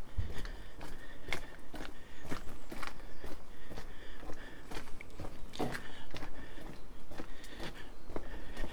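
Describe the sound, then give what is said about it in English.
Footsteps of someone walking outdoors behind a shabby hotel on a hill, a steady run of many soft, crunchy steps at an even pace, moderately loud throughout with no talk. “And I'm walking behind the shabby looking Imperial Hotel.”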